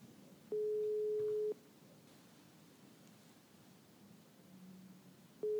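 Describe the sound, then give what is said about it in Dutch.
Ringback tone of an outgoing telephone call: one steady, low-pitched tone lasts about a second, a long silent gap follows, and a second tone begins at the very end. No voices are heard. “dus laten we Daphne inderdaad eens even gaan bellen. Ik heb haar hier onder de knop.”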